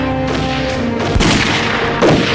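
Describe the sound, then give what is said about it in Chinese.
Sustained gunfire from soldiers shooting toward heavily fortified enemy positions: a dense, continuous volley of shots with a couple of heavier, louder bursts standing out. “咱们躲在这儿放枪，那不瞎浪费子弹吗？”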